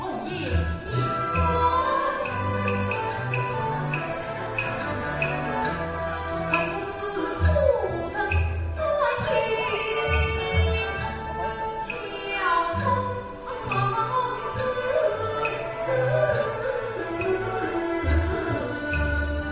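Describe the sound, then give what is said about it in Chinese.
A live Yue opera performance, a newly written period piece at its premiere in a Nanjing theatre. Sung vocal lines run over dense instrumental accompaniment, continuous and fairly loud, with occasional sharp percussive accents. “现在各位听到的就是越剧《乌衣巷》在南京紫金大戏院首演的现场音响。”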